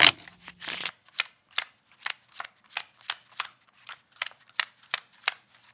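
Playing cards are riffle-shuffled in a quick papery burst, then dealt for a game of poker, five cards each, as many crisp separate snaps at a fairly steady rhythm.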